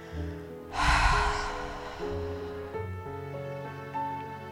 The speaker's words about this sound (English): Take one more big inhale through your nose and exhale it through your mouth.